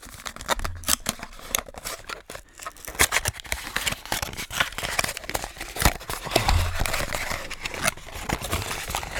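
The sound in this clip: A package is unpacked right at the microphone, with dense crinkling, rustling, scraping and tearing of packaging in many sharp, irregular bursts throughout.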